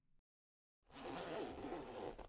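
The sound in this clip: A trouser zipper is pulled down in one smooth, rasping stroke lasting about a second and a half, preceded by a brief soft tap and a short silence.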